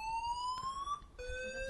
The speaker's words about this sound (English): A fire alarm just went off. That's convenient.